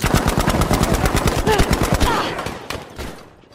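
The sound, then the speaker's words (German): Dense machine-gun fire and gunshots from a World War II battlefield in a video game, rapid loud bursts crackling nonstop for about two seconds before thinning into scattered shots and fading. “Hier der entsprechende Schlachtfeld-Sound.”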